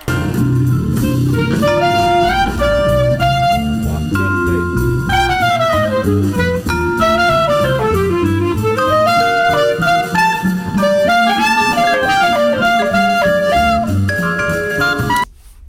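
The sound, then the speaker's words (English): A clarinet plays a jazz blues chorus at a slowed tempo, its phrases weaving up and down over a steady, full band accompaniment that runs continuously until an abrupt stop at the end. “And so the whole chorus sounds like this.”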